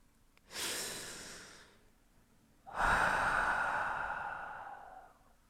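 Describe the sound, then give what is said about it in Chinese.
Deep breathing from a person: two long, drawn-out breaths separated by a short pause, the second louder and longer than the first, heard alone without talk. “深深的呼吸”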